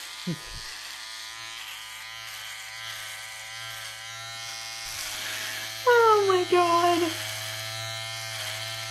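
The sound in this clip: Electric shaver buzzing as it shaves facial hair, a steady, even drone that runs unbroken throughout, with a voice speaking over it at times.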